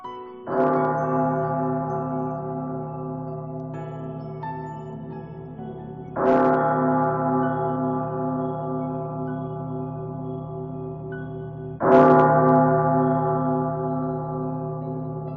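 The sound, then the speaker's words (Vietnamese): A great hall bell rings out in three heavy strikes, each with a long, slowly fading metallic hum of layered tones, evenly spaced and heard alone without voices. “tiếng chuông đại điện không ngừng vang lên”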